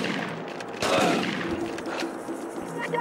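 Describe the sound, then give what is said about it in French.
A loud gunshot blast from a pump-action shotgun fired in a video game bursts out early and is followed by dense, continuous noisy game sound. “Parce que le feeling du fusil à pompe, il est incroyable.”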